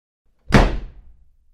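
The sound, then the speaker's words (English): A door slams shut into a nursery with one sharp, loud bang. A low rumble follows and fades away over about a second. No other sound is heard. “slammed the door shut”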